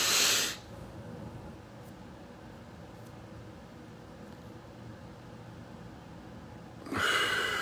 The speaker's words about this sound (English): I feel relaxed by the second breath. Give me a third one.